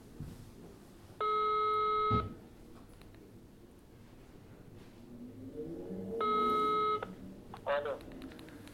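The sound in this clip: A telephone call ringing out: two steady tonal rings, each about one second long and separated by several seconds of quiet background noise, followed by a few short faint tones.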